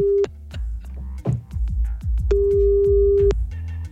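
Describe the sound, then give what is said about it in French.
A telephone ringback tone sounds while a caller is being phoned back: a steady mid-pitched beep, with the tail of one tone and then one full, roughly one-second tone, over a thumping rhythmic music beat. “Allez, on rappelle.”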